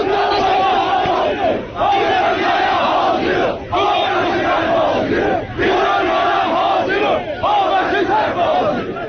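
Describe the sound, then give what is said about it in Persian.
A protest crowd chants at a rally in Tabriz. The loud, shouted phrases repeat in a steady cycle, with a few brief pauses between rounds of chanting. “صدای ویدئویی بود که روز دوشنبه در شبکه‌های اجتماعی منتشر شده و در توضیح آن آمده که مربوط به تجمع‌های روز دوشنبه در تبریز”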